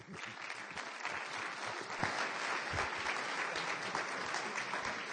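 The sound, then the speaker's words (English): A church audience claps for their pastor, a sustained, full round of applause that holds at a steady level throughout, with a few scattered voices faintly mixed into the clapping. “Let's keep our hands going one more time for Pastor Glenn and the wonderful vision that he has for this region.”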